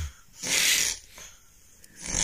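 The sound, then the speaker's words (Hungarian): A person snores, heard in a recording their partner made. The sound is rough and breathy and fairly faint: one long rasping snore, then quieter breathing, then another rasp starting at the end. “Ő is felvette a párját, ő így horkol.”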